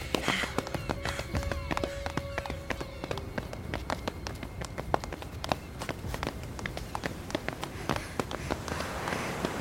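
Quick, steady footfalls of people running, with many sharp steps in an even rhythm over a constant low rumble.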